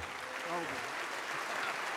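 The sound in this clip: An audience applauds to welcome a guest onto the stage, with thick, continuous clapping at a steady level and a voice briefly audible over it.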